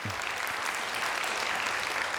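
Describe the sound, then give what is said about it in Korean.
Audience applause welcoming a guest lecturer to the stage: fairly faint, steady, dense clapping holds at an even level for the whole clip. “우리 송소리 박사님을 큰 박수로 맞이하겠습니다.”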